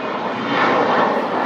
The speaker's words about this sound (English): Gulfstream. Very nice aeroplane taking off.